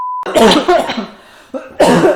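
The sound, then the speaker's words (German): Two people cough in a burst of several harsh, loud coughs in quick succession. A short, steady beep comes just before them. “Sehr authentisches Husten von beiden Protagonisten.”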